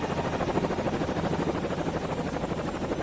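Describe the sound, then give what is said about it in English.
A medical rescue helicopter in flight, its rotor throbbing in a steady rapid pulse over a loud, continuous engine roar and whine, with no talk. “And the helicopter I've just hitched a ride in is no ordinary chopper.”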